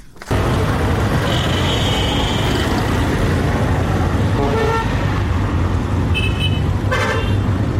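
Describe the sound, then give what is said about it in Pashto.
Dense, steady traffic roar at a large intercity bus terminal in Quetta, with car horns sounding over it: one drawn-out toot early on and a few shorter honks near the end. “دا په کوټه کې د مسافرونکو بسونو یو لوی اډه ده”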